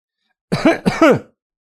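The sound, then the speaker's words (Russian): A careful throat clearing near a staircase, made of two short, rasping voiced bursts that stand alone against silence. “У лестницы послышались шаги и осторожное покашливание.”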